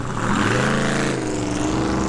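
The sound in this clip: A car engine running as the vehicle is driven out of a garage, a loud, steady motor hum with layered tones that shift slightly in pitch.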